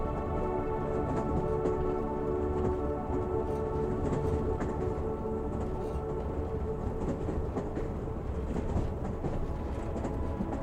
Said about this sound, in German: Schließlich nähert sich der Zug einem Tunnel, der tief ins Herz eines gewaltigen Berges führt.